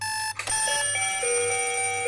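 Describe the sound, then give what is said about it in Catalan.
An electronic alarm clock rings loudly with bright, synthesized beeping tones that step between pitches in a quick, repeating pattern. “Despertador?”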